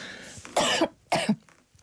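Two sharp, raspy coughs from a person with something suddenly caught in the throat, close together and fairly quiet, with no other sound around them.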